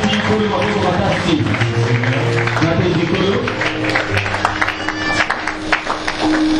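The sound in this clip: An audience at a church service acclaims the Lord with rhythmic clapping. The clapping mixes with sustained musical tones and voices, staying loud and lively throughout.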